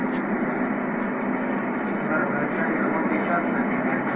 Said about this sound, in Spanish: está en pista el avión de Iberia.